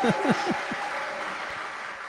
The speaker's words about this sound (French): Le public est en délire.